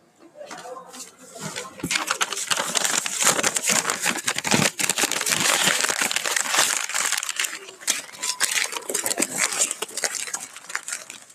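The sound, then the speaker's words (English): Book pages flipped one after another, making a dense, continuous papery rustle and crinkle that stays loud and busy for about ten seconds after a brief quieter start. “Now, I am going to flip through the pages of this book.”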